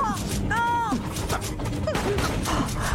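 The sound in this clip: Gunfire in a video game: a rapid run of sharp shots and impacts crackling under shouting voices, with the firing continuing throughout.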